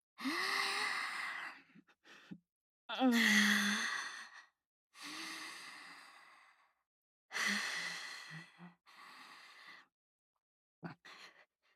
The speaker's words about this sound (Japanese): 落ち着け、一度深呼吸をしよう。